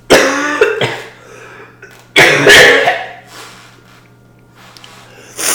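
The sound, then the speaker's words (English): Coughing from a woman who is unwell and trying to hold it back: a few harsh, throaty bursts clustered near the start, another strong fit in the middle, and a fresh burst at the very end, with quiet breathing in between. “I'm like coughing like crazy, but trying not to.”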